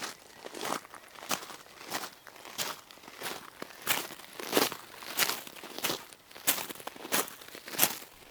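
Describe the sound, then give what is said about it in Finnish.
Footsteps of people walking toward the meeting area of a large Christian summer gathering: many quiet, steady, slightly crunchy steps in an even rhythm, with no talk. “Askeleet käyvät kohti seura-aluetta.”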